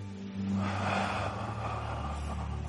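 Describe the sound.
One deep breath drawn in: a broad, airy rush that swells early and then tapers away, over a low, steady hum running throughout.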